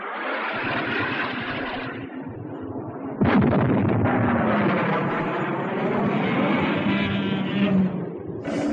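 Fighter jets roar in as they fire rockets at giant monsters during a battle involving Godzilla. A steady engine drone is split by a sudden loud blast about a third of the way through, and the roar carries on afterward.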